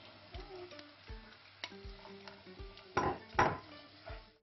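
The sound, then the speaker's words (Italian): Pumpkin goes into a sizzling pan of rice with rosemary, with soft stirring scrapes over a low frying hiss and a couple of louder clattering scrapes toward the end. “Aggiungiamo la zucca,”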